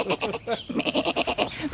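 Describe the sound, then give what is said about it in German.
Small goat bleating in quavering, rapidly pulsed calls: a short burst, a brief pause, then a longer trembling bleat, fairly loud. “Das hat eine lustige Sprache, ja, so eine kleine Ziege. Mhm. So klein und schon so meckerig.”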